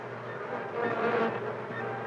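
Bees buzzing inside a beehive make a dense, steady hum with a low droning tone, swelling slightly in the middle and carrying on without pause.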